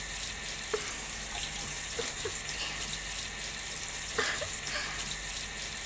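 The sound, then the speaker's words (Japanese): Hot water running from a tap makes a steady, fairly soft hiss, with a few small drips and splashes breaking through now and then. No one speaks. “先っぽにお湯当てられるの気持ちいいですね。”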